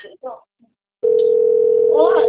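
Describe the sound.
A telephone line ringing tone, a steady mid-pitched electronic hum that begins abruptly after a second of brief speech and silence, holding an even level while a voice speaks over it near the end.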